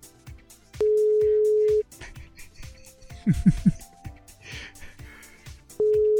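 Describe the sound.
Ringing tone of an unanswered telephone call: two steady, mid-pitched tones of about a second each, separated by a long pause in which people talk quietly.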